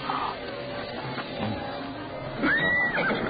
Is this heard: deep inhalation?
no